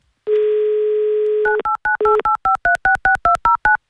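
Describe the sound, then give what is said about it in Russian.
Telephone number dialed for a listener call: a steady dial tone holds for over a second, then a quick, evenly paced run of many short keypad tones in shifting pitch pairs follows, loud and clean. “Давайте узнаем у нее лично, наберем ее номер.”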